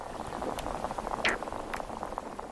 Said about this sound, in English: The only sounds you hear are either water movement or some very like low-frequency, quiet fish calls.